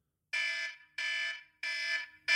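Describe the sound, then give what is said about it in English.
A timer alarm marks the end of each five-minute segment: a bright, harmonic electronic tone sounds in repeated even bursts with short gaps between them. The last burst is cut off. There is no talk. “I have my alarm, which will sound like this.”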